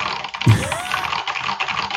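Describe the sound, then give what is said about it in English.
Someone types on a loud computer keyboard: a low thump followed by a steady stream of quick clicks. “Here, like I'll type some stuff on it now.”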